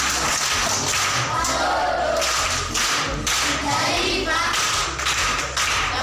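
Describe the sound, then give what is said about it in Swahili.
Audience applause at a primary school gathering, continuous dense clapping with sharp, slapping hand strikes, sustained at an even level for about six seconds. “Makofi kwa mjomba.”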